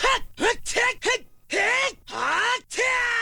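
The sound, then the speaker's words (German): Wordless vocal grunts and yells from Link, the hero of The Legend of Zelda video game: four short, clipped effort sounds in quick succession, then three longer, drawn-out cries, each arching up and down in pitch. “Eine Sache, an die ich mich aber immer erinnere, wenn ich an dieses Spiel denke, dann sind es die Geräusche, die der Held Link macht.”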